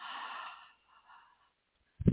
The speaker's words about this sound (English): Breathe in.